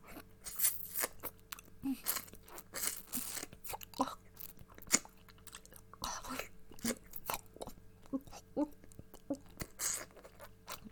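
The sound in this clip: Chewing gum is worked close and wet, with many small sticky crunches and clicks in an irregular rhythm. The sounds are soft and intimate throughout.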